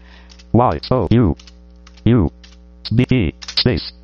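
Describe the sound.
Keys clatter on a computer keyboard as a song title is typed into a search box, in several irregular bursts, with a voice sounding between the keystrokes over a low mains hum.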